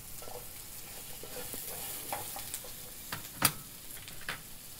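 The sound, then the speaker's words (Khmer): Garlic frying in a pan gives a soft, steady sizzle, with a few light stirring scrapes and clicks over it. “យើងអំពងខ្ទឹមដាក់ដូចហ្នឹងបាទវាឈ្ងុយ”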